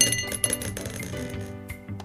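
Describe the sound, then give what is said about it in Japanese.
Dice thrown onto a surface: a few short, hard clicks and clattering taps that settle quickly, fairly faint. “ではサイコロお願いします。 はい、じゃあ1回目投げます。”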